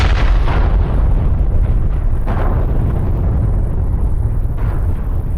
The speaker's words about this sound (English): The planet exploded with the incorruptible fire.